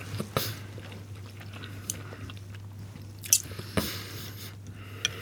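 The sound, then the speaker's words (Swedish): People chew mustard-glazed Swedish Christmas ham with a fat edge: faint wet smacks, bites and small crunches scattered irregularly over a low steady hum, with a few sharper bites standing out and no talk. “nu pratar vi inte så mycket här för att vi har munnen full av mat.”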